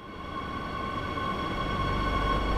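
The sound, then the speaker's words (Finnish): Madrid metro train running southbound, heard as a steady, even rumble with a faint sustained whine held above it throughout and no voices. “Astun etelään kulkevan metrojunaan Las Tablasin asemalla Madridin pohjoisosien hyvinvoinnin keskellä.”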